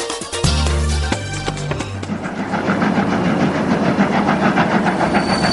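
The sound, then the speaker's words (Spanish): A locomotive moving along, opening with a deep harmonic tone for about two seconds, then a steady, loud rolling rumble with rhythmic clatter. “la locomotora sigue avanzando.”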